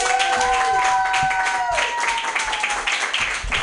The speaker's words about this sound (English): Put your hands together for Mike Whitaker. Yay!